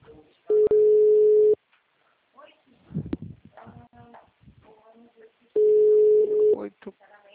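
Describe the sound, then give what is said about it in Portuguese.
A WhatsApp call rings through with two long, steady ringback tones of about a second each, separated by a pause with faint voice and small noises in between. “consigo chamar ele aqui no zap.”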